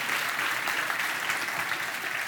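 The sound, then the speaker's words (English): Applause from an audience in a church: a steady, dense wash of clapping that holds at an even level throughout, with no voices rising above it. “Let's give Pastor Winston another big round of applause.”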